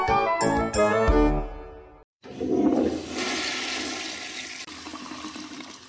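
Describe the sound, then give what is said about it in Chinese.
A toilet flushing: after a few short tonal notes, a loud rush of water surges in and settles into a steady hissing, gurgling flow that lasts to the end. “冲完水，马桶内的便便到哪儿去了？”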